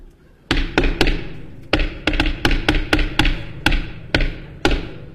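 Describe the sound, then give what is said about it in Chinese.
Knocking on a door, performed during a comedy skit: many sharp, loud thumps in short irregular bursts, some in quick pairs and some single, with no talk over them. “你干嘛呢？ 敲门。 您敲门，您不说叫门吗？”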